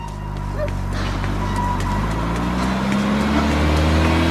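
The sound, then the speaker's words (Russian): A car pulling up and stopping, heard as a steady low engine rumble with a continuous drone throughout. “Останавливается машина.”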